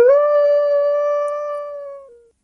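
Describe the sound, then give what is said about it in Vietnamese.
A wolf howls once across a desolate, silent wild field: a single loud, clear tone holds a steady pitch for about two seconds, dips slightly at the end and then cuts off. “Tiếng sói tru quanh quẩn ở trên cánh đồng hoang vu tĩnh lặng”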